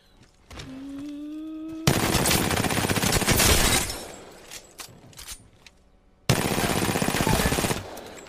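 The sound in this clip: Rapid automatic gunfire from a gun in a video game, heard as two long, loud sustained bursts separated by a short lull, preceded by a rising electronic whine.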